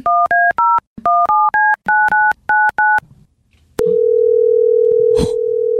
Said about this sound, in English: You got to dial 9 first, right? Or 8? Yeah, I think it's 9.